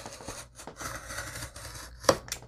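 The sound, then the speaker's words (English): Scissors trim magazine paper in a few quiet, crisp snips spaced unevenly, with one sharper cut near the end. “So I'm just going to trim off a little bit more. It's not that hard with this guy.”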